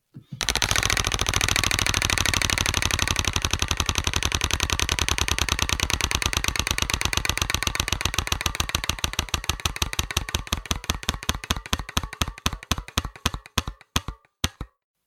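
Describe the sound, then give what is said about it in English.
A prize wheel spinning: a fast, dense rattle of ticking clicks that gradually slows into distinct separate clicks, thinning out until the wheel comes to rest near the end. “I'll spin the wheel again then.”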